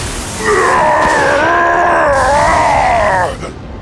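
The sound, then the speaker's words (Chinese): A demon screams in pain after being struck by lightning: one long, loud, wavering cry that holds for about three seconds before cutting off. “哈卡痛得失声尖叫”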